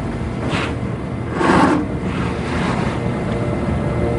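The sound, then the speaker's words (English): An air conditioning unit runs noisily, a constant broad rushing roar with a low rumble and a couple of brief louder swells. “This AC unit in Galactica sure does make a lot of noise, doesn't it? Well, that's how you know it's working.”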